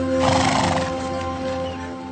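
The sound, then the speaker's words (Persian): A horse pulling a sleigh neighs loudly near the start, and rhythmic clip-clop of hooves continues alongside a steady tonal backdrop through the short clip. “سورتمه سواری. آدمی بی اختیار یاد افسانه ها می افتد. اینطور نیست؟”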